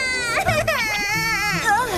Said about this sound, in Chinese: 都怪你们，把我妹妹给惹哭了。